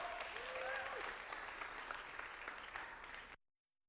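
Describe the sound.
An audience breaks into warm applause to welcome a speaker to the stage. Dense, steady clapping fills about three seconds and then cuts off abruptly.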